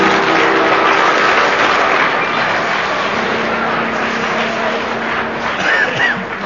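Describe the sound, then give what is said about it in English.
Sustained applause from a studio audience at a panel game show: a dense, steady clatter of many hands clapping that holds at an even, fairly loud level for the whole span. “Well, that uh, ovation from the audience puts you just in the lead”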